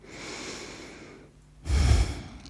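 A person takes one deep breath during a short relaxation exercise: a long, airy, steady breath, then a louder, rushing breath with a low, rough rumble that fades at the end.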